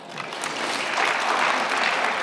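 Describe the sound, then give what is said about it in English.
Audience clapping at a political talk: dense, steady applause with no voices on top, swelling slightly past the halfway point and holding. “I'm just describing, you can clap on a nonpartisan basis”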